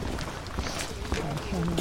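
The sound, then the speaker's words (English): Footsteps crunch on dried November leaves along a narrow dirt path lined with conifers and deciduous trees, a steady run of soft crackling steps under a man's talking. “We head down a narrow dirt path with tall conifers and deciduous trees on either side. It's November, so there are dried leaves crunching beneath our feet.”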